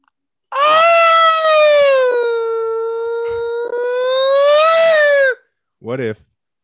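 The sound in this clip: A person's voice imitates a tornado siren with one loud, long sustained howl that dips slightly in pitch and then climbs back, followed by a short second vocal burst.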